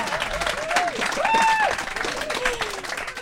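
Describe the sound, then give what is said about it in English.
An audience claps and cheers as a comedian comes on stage, with whoops and excited voices rising over dense, continuous applause. “So please, without any further ado, please put your hands together for the incredible comedian Zoe Lyons!”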